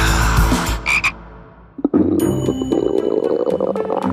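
Frog calls: a dense, rasping chorus of croaks that runs steadily, drops off briefly partway through, then picks up again loudly with overlapping calls.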